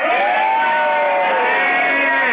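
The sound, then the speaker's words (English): A live audience at a pajama-party show cheers a greeting, many voices shouting and whooping together in one sustained, loud burst. “And we're with a live audience. Say hi, everybody.”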